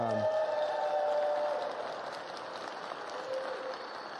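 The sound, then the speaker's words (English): A church audience applauds a graduate during a worship service announcement, a steady, moderately quiet wash of many hands clapping that holds evenly for several seconds and eases slightly toward the end. “Now, you did start clapping before what I said she graduated from.”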